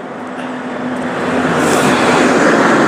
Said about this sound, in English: there's the bus heading in the opposite direction